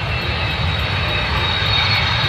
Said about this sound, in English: I love, absolutely love that rush when you're sitting on the plane, it's about to take off and the wheels go up and you kind of feel it